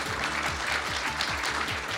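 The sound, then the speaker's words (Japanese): Applause greets a company president taking the stage at a corporate presentation: soft, steady clapping from a crowd over a low, repeating rhythmic beat, quiet and even throughout. “盛大な拍手でお迎えください。”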